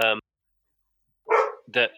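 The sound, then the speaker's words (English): Dogs barking: a few short, sharp barks, one at the start and a quick pair near the end, with silence between. “Your dogs don't agree. they weren't happy with that assessment at all.”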